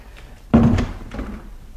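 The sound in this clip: A door opened to let a visitor in: a sudden heavy thunk, followed a moment later by a softer second thud.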